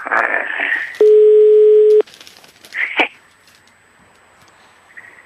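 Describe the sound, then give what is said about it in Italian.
A telephone tone sounds as one loud, steady, mid-pitched electronic beep lasting about a second, with brief voice-like sounds before and after it. “Un telefono che squilla”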